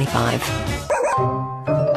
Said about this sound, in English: I'm Tyson, one of the Footsteps therapy dogs.